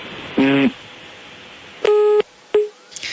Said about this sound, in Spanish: Perdimos la llamada que teníamos allí conectado con la voz del fiscal Néstor Humberto Martínez